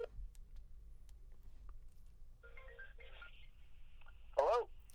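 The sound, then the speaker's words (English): A telephone being dialed to place a call: faint scattered clicks and ticks, then a short burst of steady electronic tones, and a brief, louder warbling tone near the end, all over a low background hum. “You're dialing? Okay. You're dialing.”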